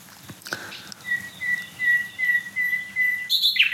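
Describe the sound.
Several songbirds sing at once, one of them smaller than a blackbird. A thin, high whistled note repeats over varied song, and a burst of bright chirps comes near the end.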